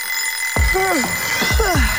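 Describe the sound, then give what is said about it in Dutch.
An alarm clock rings in a few separate bursts. Sharp strikes carry ringing tones that bend in pitch, over a steady high whine. “de wekker kan vreed wezen”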